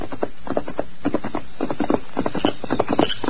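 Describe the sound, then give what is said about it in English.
Horse hooves clip-clop as a rider heads home at night toward an old prospector's cabin, a steady loping rhythm of many hoofbeats falling in quick clusters. “Well, one night I was riding out to my place and was approaching Old Pete's cabin.”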